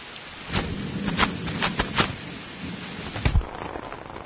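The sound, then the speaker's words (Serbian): Heavy summer rain shower with thunder: a steady, dense hiss of pouring rain, with a few louder bursts standing out above the wash. “Počelo je leto, a letnji dani umeju da iznenade velikim kišnim pljuskom. Velikim kišnim pljuskom.”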